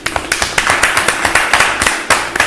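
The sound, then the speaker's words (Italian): Applause welcomes a guest at a dinner-in-the-dark event: many quick, sharp hand claps in a steady, even patter that keeps going for the whole moment, with no voices over it. “benvenuto a Dennis Frison alla cena dei regini, un applauso.”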